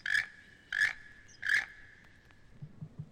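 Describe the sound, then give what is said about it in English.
A toco toucan gives three harsh, croaking calls, evenly spaced and sounding much like a chirping frog, with faint low sounds after them. “This toco toucan sounds like a chirping frog.”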